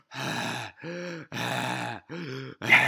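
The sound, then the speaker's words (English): A man's voice imitates someone heavily out of breath, producing five voiced, groaning gasps that alternate between longer and shorter breaths in a labored rhythm, the last one cut off. “He was out of breath from the refrigerator to the front counter.”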